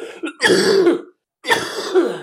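A man coughing and choking: two harsh, throaty coughing bursts separated by a short silence, loud and alone.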